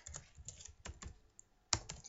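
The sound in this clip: Computer keyboard typing while someone writes down a name: quiet, irregular bursts of keystrokes with short pauses between them and one sharper click near the end. No voices.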